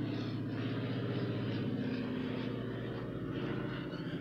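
Droning propeller engine of a small airplane practicing takeoffs and landings and looping overhead, heard as a steady, low harmonic hum that holds at an even level throughout, with no voices.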